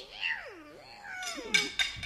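A tomcat lets out a long wavering meow whose pitch dips low and then climbs again, followed by two short, sharp bursts of sound.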